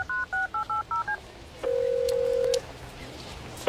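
Telephone keypad dialing tones: six quick, evenly spaced two-tone beeps followed by one longer steady tone, all fairly faint with no talk over them.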